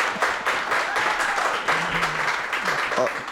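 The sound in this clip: A live audience applauds in a cafe venue, with dense, even clapping throughout and a voice talking over it.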